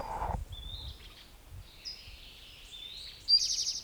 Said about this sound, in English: I don't see the bird yet, Western Tanager in the background.